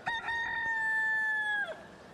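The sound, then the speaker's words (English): A rooster crowing: a few short clucks lead into one long, loud, steady crow that drops in pitch as it ends, heard alone. “He told him he would deny him before the rooster crowed. We have audio of the rooster, sir.”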